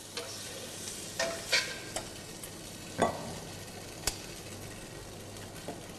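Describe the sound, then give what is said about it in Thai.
Shrimp stir-fried in a pan give off a steady, soft sizzle, broken by a few scraping stirs of a utensil against the pan. “เมื่อกุ้งสุกได้ที่ทุกอย่างเข้ากันดีเราจะตักขึ้นพักไว้ก่อนนะฮะ”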